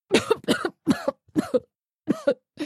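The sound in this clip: A person coughs convulsively after choking on food while eating and talking: six harsh, rapid bursts in an uneven rhythm, each with a double jolt, the last one cut off.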